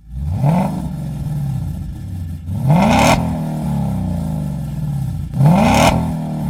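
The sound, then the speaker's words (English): A car engine revving through a TrueX-design straight-pipe exhaust with no muffler. Three loud, sharp revs climb in pitch over a steady rumbling idle, each with a raspy, crackling edge. “if you're going for that straight pipe sound, or you want a little bit more of that race car kind of cackle and pop”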